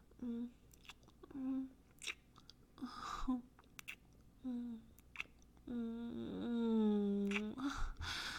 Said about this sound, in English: Give mommy a kiss. I want to taste my baby boy's lips.